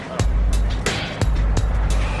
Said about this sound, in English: Well, there's another vehicle. Yeah, we have probably 10 of those down here.